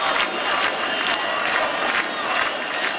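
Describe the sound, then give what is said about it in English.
Crowd noise at a night-time protest in Albania against plans for luxury properties and a hotel resort on the Mediterranean coast: a dense roar of many voices rising in regular rhythmic surges, like chanting. “The sounds of protests in Albania this week. They've been taking place every night over plans for a huge new development of luxury properties and a hotel resort on a pristine stretch of the country's Mediterranean coast.”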